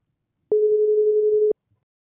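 Ringing tone of an outgoing telephone call: a single steady, pure, mid-pitched tone lasting about one second, heard alone against silence.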